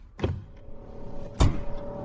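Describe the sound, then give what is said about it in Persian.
Two dull thumps sound as a bag is placed into the trunk of a Chevrolet in a garage, the second heavier than the first, over a steady low hum. “جان در گاراژ خودش یک کیف رو در صندوق عقب شورلت قرار میده.”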